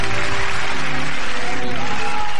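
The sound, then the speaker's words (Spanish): Loud, dense applause from an audience at a diploma award ceremony, holding steady throughout with tonal sounds mixed into the clapping. “El aplauso para Pablito Fernández. Le damos el diploma de”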